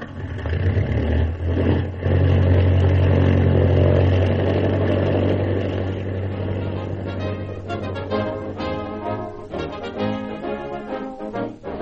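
A motor engine revs, swelling to a loud, steady drone with a strong low hum for a couple of seconds, then easing off into a quieter, uneven churn with sharper bursts.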